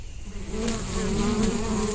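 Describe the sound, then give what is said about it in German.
Angry bees buzz around a beehive in a video game, a dense, continuous droning hum that swells slightly and holds steady throughout with no voices. “Ich sollte nicht zu nah herangehen. Die Bienen sehen zornig aus.”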